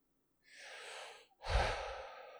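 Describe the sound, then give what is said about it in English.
Human breathing with some mucus: a soft, airy inhale followed by a louder, rougher exhale carrying a low, rattling rumble. “Listen to that breath. And frankly, I'm holding back a little bit of mucus at the end.”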